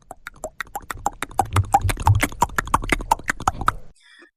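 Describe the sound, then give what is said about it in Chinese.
A galloping horse's hoofbeats come as many quick, sharp clops in a driving rhythm. They grow louder early on, hold steady, then stop abruptly. “就在这个功夫，传来一阵急促的马蹄声，这马蹄声是由远而近。”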